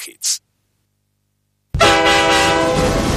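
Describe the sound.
Metro train carriage noise: after a brief burst and a silent gap, a loud sustained rumble with a tonal, horn-like hum sets in and continues to the end.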